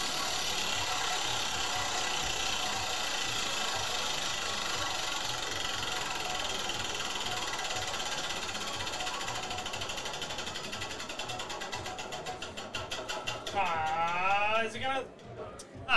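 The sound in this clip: A prize wheel spins with a fast, continuous mechanical clicking that holds steady, then breaks into more widely spaced ticks as it slows near the end, where a voice is briefly heard.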